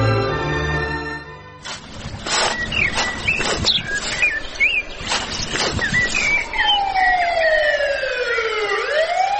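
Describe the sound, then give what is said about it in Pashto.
A police car siren sounds as the vehicle passes through a village: loud wailing tones that sweep up and down, ending in long falling glides over the last few seconds. “د پولیسو موټر خو هره ورځ په کلي کې تیریږي او را تیریږي.”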